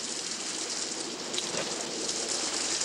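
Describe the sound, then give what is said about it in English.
Rain pelts a wrought iron gate in a steady, fairly soft, even hiss of drops. It stays continuous from start to finish with no voices. “Kat watching from behind a wrought iron gate pelted by rain.”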